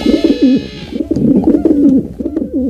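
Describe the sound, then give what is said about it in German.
Carrier pigeon cooing, a loud series of rolling, throaty coos repeated in short phrases with brief pauses between them. “aber die Brieftaube kommt zurück.”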